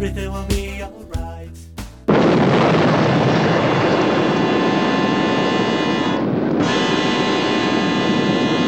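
A nuclear weapon explodes with a sudden, massive roar that cuts off a few brief musical notes, then holds as a loud, sustained rumbling blast to the end.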